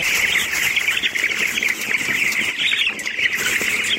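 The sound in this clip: Chickens at a poultry farm raising birds for meat in Kunduz fill the air with a dense, continuous chatter of many birds chirping and squawking, steady in level throughout, with no voices.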